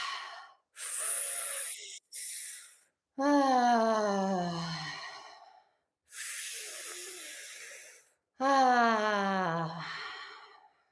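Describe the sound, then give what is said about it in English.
Two rounds of breathing during a pelvic-floor breathing exercise: each begins with a hissy inhale drawn in through the mouth, then a voiced "ah" exhale that starts loud and slides down in pitch. “you're pulling in the air through your mouth. And then as you do that, squeeze your pelvic floor at the same time as you breathe in. And when we breathe out, we'll just make a sound like an ah.”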